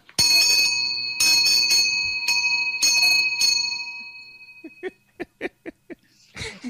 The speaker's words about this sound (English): that was a actual genuine from Switzerland Swiss cowbell